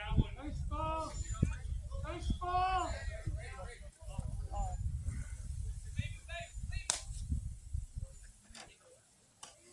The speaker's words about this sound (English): Here comes the pitch. Swing and a drive!